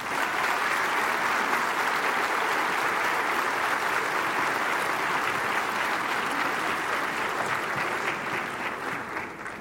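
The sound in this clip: Warm, sustained audience applause welcomes the director general to the stage at an evening concert gathering. It is a dense, even wash of clapping that continues throughout and eases slightly at the end.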